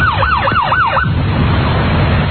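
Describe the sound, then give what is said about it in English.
A police siren wails as a car is pulled over after a U-turn, giving three rising-and-falling sweeps in about a second before cutting off, leaving a steady low engine rumble. “Was that a legal U-turn you did? Are we being pulled over? There's a definite chance of that. Yeah, we're being pulled over. Don't hit the cop car yet, Bill. We are being pulled over now.”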